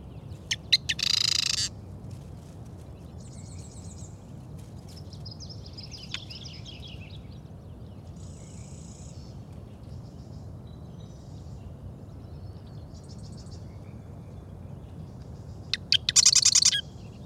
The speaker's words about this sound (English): Hear that? You can hear him weaving his nest while singing.